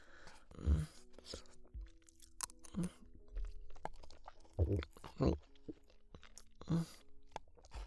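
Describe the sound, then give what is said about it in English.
Someone chews and eats food, making a few soft, crunchy bites and mouth noises at irregular gaps. The sounds are fairly quiet, with faint steady tones in the background. “It looks a little funny, but I guess I'll eat it.”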